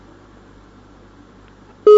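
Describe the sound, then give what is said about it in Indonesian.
A telephone call drops and a disconnection beep cuts in. Quiet line hiss runs for most of the stretch, then a loud, steady electronic tone starts abruptly near the end and holds until the cut. “terputus sambungan teleponnya untuk pertanyaan kedua”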